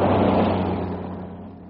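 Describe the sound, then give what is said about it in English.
A car engine rumbles in a broad, steady low-to-mid drone that eases slightly in loudness over the short stretch, with no voices over it. “Oh, here, another car coming.”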